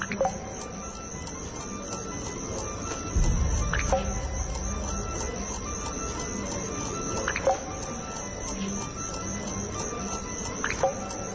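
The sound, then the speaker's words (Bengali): Water drips slowly from a tap that was tightly shut, each drop a sharp little tick spaced evenly several seconds apart over a low, steady background hum. “এবার আরো জোরে শব্দ হচ্ছে, সে স্পষ্ট বুঝতে পারছে আবার সে পানির ফোটার শব্দ। আবার পানি পড়ছে কিভাবে?”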